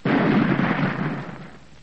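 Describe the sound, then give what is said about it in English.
A gun fires once outside a king's enormous mud palace at Ouagadougou at seven in the morning, a loud, broad boom that starts abruptly and slowly fades. “Then at promptly 7 o'clock, a gun is fired outside the palace.”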